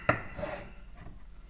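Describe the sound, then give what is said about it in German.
A knife cuts food on a board into one-centimetre cubes, starting with a horizontal slice: one sharp tap, then a short rasping stroke that fades into faint scraping. “Den müssen wir in Würfel schneiden. Ich würde mal sagen, so ein Zentimeter Kantenlänge Würfel schneide ich erstmal waagerecht durch.”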